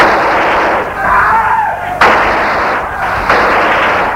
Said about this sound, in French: Des coups de feu.